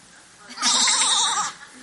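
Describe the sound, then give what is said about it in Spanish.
Sheep bleating: a single loud, wavering bleat lasting about a second, with a quavering vibrato in its pitch, rising sharply out of a faint background and then fading. “Sheep are calling.”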